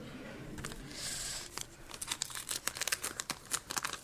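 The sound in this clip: Paper crinkling and tearing as an envelope is opened on stage for an award announcement. The rustle starts faint and soft, then turns into many quick, crisp rips.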